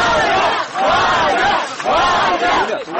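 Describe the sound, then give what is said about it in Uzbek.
A crowd of colleagues and activists cheers outside the doors of the Interior Ministry's main investigative directorate in Moscow, welcoming a freed journalist. Loud, dense voices swell in two long waves with a brief dip between them. “Moskvadagi Ichki ishlar vazirligi tergov bosh boshqarmasi eshiklari oldida uni o'nlab hamkasbi va jurnalistning ozod etilishini talab qilib kelayotgan faollar olqishlar bilan kutib oldilar.”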